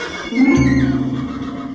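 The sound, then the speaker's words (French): Horses neigh in terror as they are dragged toward a funeral pyre. A strained, drawn-out whinny sounds over a low, rumbling background. “les chevaux, condamnés aussi à mourir avec le tyran, hennissent de terreur”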